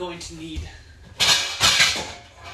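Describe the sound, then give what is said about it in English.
Metal clatter of a saucepan being pulled out for cooking: two bright, loud clanks in quick succession, with a voice speaking just before. “Next, I'm going to go ahead and get out a saucepan.”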